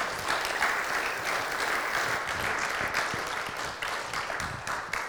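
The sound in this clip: Church audience applause welcoming a speaker to the front: steady, loud clapping from many people, with a few individual claps standing out near the end.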